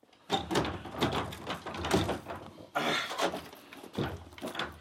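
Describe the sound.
A door being opened at a family home, heard as a few rattling thumps and scraping bursts at irregular intervals, fairly faint overall.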